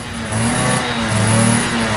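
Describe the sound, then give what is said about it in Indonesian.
A motorcycle engine runs and revs in a steady, even drone, its low humming tones holding fairly constant and moderately loud throughout. “Lo serius jemput gue pakai motor kayak gini?”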